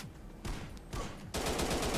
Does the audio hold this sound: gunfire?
yes